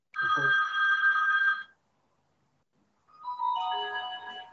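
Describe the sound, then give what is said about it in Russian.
A telephone rings with an electronic tonal ringtone: two long bursts of bright notes separated by a gap of silence, heard alone without talk. “Извиняюсь, выключил телефон, чтобы не отвлекал.”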